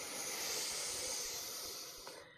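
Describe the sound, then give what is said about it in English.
A deep inhale during a guided breathing exercise: a long, steady, airy hiss that holds for about two seconds and eases slightly at the end, faint and alone, with a tiny click near the close. “Let's take another deep, deep breath, expanding the heart.”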